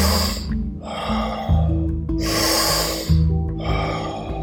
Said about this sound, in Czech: Nádech, výdech, nádech, výdech. Pokračuj.